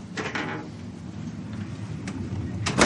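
A house door being shut: a few brief knocks and clicks, with a sharper closing thud right at the end, over a steady low background hum.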